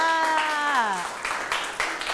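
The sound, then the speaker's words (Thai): Children in a classroom clap for a classmate who answered correctly: a teacher's voice speaks first, then a short burst of scattered, moderately loud claps follows. “ว้าวถูกต้องค่ะปรบมือให้เพื่อนค่ะ”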